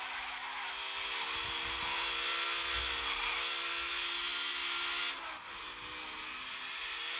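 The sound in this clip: Engine whine of a car in a racing video game, a sustained high tone with layered harmonics that dips sharply near the end and then climbs back.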